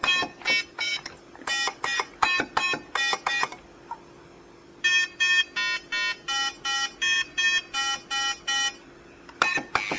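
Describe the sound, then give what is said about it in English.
Beeps and buzzing tones from an electronic game, with the buzz marking a player error. Rapid runs of short, bright tonal bursts repeat in quick rhythm, pause briefly, then start again. “And that buzzing noise you heard is just an indication that you've made an error.”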